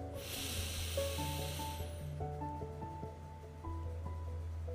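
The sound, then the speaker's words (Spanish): A slow, deep breath drawn in through the nose during a guided breathing exercise: a soft, airy hiss lasting under two seconds, then fading, over quiet sustained background music. “Ahora vamos a volver a hacer tres respiraciones profundas voy a inhalar profundo por nariz.”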